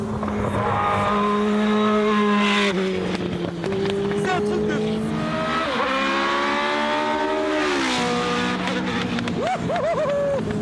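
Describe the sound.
A Formula 1 car's V8 engine revs hard toward about 8000 rpm, a loud, sustained, buzzing whine whose pitch steps up and down several times across the run.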